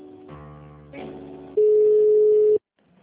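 A single steady telephone tone during a call transfer on an office line. It sounds for about a second after a short stretch of other sound, then cuts off abruptly.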